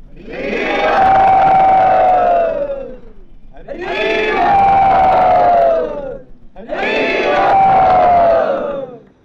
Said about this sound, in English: So everyone welcome Brinda Priya and Ranchor back by saying Hari Bol.